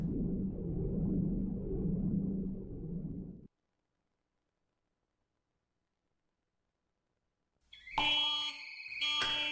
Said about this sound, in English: The alarm really shouldn't be going on this long.